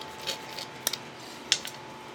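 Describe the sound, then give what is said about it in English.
A knife cuts through an animal's neck at the first vertebra as a butcher takes the head off a skinned carcass, a few sharp scraping clicks over a steady hiss. “We're gonna take the head off. When I do the heads, I always cut at the first vertebrae. Cut it all out with the knife.”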